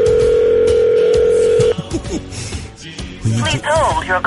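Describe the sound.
A telephone ringing tone while waiting for the call to be answered: one steady, even tone that holds for under two seconds and cuts off, followed by talk and laughter.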